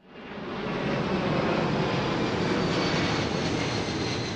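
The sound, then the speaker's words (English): Airplanes fly low overhead through a leafy residential neighborhood in Memphis, right in an international airport's flight path. A broad, steady engine roar swells over the first second, then holds loud and constant with no talk. “That might sound like an airport runway”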